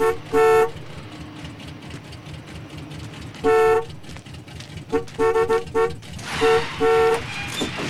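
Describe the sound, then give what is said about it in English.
A car horn honks in a junkyard, sounding in a few short blasts and longer bursts in an uneven pattern over a low rumble. “Could you honk your horn for me?”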